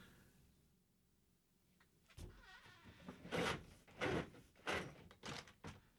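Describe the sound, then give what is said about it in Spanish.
A roller blind being pulled open after a quiet pause, giving several loud rattling, clattering bursts in an uneven rhythm with no voices. “¿Qué tiempo hace hoy? Venga, abro la persiana. Venga. Procedo a abrir la persiana.”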